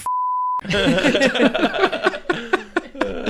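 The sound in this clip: One sustained pure-tone beep from a horror movie clip, steady and high, cuts off abruptly and gives way to voices and light laughter.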